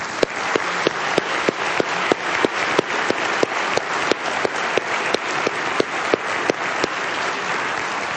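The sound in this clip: Audience applause welcoming a debate speaker, a theologian and author: dense clapping holds at an even level throughout, with sharp individual claps standing out at a steady pace.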